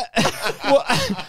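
A man coughing in three harsh, rough bursts in quick succession, each with a raspy, throaty edge and a brief gap between them.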